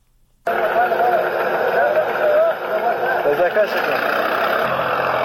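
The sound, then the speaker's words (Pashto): A tractor ploughs up poppy fields in Nawzad district, Helmand. Its engine starts abruptly and then drones loudly and steadily throughout, with voices heard over the engine. “دا د هلمند په نوزاد ولسوالۍ کې پر ټراکتور د کوکنارو د کښت اړولو غږونه دي چې د طالبانو سیمه ییزې ادارې له رسنیو سره شریک کړي دي.”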